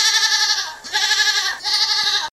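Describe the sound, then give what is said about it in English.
Goats bleat; the breeds kept here are British Guernsey and Golden Guernsey. There are three loud, long, wavering bleats in succession, each nasal and strongly voiced, and the last cuts off abruptly. “We're now off to see an animal renowned for its escapology skills, the goat.”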